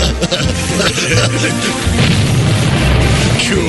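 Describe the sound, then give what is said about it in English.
Fireworks blowing up a garbage can in a Fourth of July comedy sketch, loud booming blasts and crashing bursts within a dense, continuous roar of noise. “When you order Sounds of the 4th, you'll also get sounds of teenagers blowing up your garbage can.”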